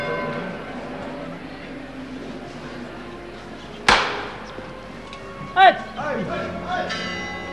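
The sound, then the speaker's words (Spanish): Holy Week procession float knocker striking inside a church: two loud, sharp metallic knocks with ringing decay, a softer one near the end, over a steady murmur of background voices. “Ahí suena de nuevo el llamador.”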